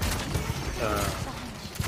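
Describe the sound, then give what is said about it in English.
Video game gunfire, a few sharp shots over a steady, noisy bed of game sound. “that was a nice headshot”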